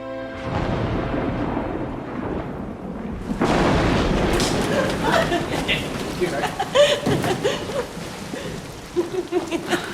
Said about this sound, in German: Ohne dass ein Tropfenfall vorhergegangen wäre, ist der Regen herniedergebrochen.